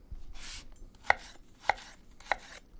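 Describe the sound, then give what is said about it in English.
Knife dicing food into half-inch pieces for relish, one softer cut followed by three sharp, evenly spaced chops, quiet and without talk. “So I'm just dicing this into roughly a half inch dice because it's going to cook down in the sugar and the vinegar.”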